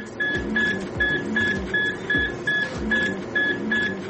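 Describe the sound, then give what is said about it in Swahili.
Dialysis machine at a hemodialysis centre in Yaounde, Cameroon, giving many bright, evenly spaced electronic beeps over a steady rhythmic pumping thump and a constant mechanical hum. “Mashine maalumu ya kusafisha damu, dialysis machine, katika kituo kimoja cha hemodialysis kwenye mji mkuu Yaounde nchini Cameroon, inatoa damu kutoka kwa wagonjwa wa figo”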